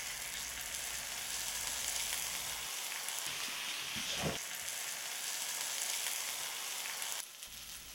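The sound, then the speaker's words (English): Tomatoes sizzle steadily as they sear cut side down in olive oil in a nonstick skillet over medium heat, a constant dense crackle that carries on alone throughout. “We want to sear these. As soon as the pan is hot, I'm going to set in my tomatoes cut side down.”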